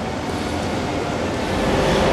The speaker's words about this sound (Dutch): En vanaf spoor 5 vertrekt zometeen de trein richting Amsterdam.